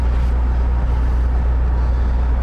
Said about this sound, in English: It makes a lot of sense to be driving around in my car with the windows down, doesn't it?